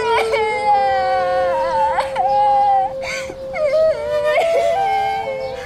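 A child cries loudly and without break, a sustained wailing tone that wavers and bends in pitch with brief sobbing catches, while a mother searches for a lost younger sister.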